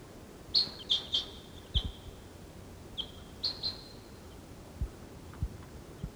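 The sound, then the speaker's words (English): Wild birds and decoy birds calling: faint, short, high chirps arrive in small clusters with pauses between them, along with a few soft low thumps and no voices. “There's some other wild birds around. Decoys calling.”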